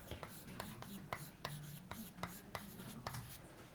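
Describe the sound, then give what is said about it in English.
Pen strokes on a board as a lecturer draws a detector diagram: faint, scratchy scrapes and many short taps in an irregular rhythm. “So let's draw the situation again for fan beam. So we have here our detector.”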